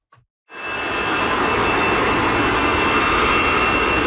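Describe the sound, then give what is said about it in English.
Jet planes taking off at Paris's biggest airport: after a tiny click, a loud engine roar surges in within half a second and then holds as a sustained, steady rushing drone. “You'd be forgiven at Paris's biggest airport for not hearing anything over the sound of hundreds of flights taking off”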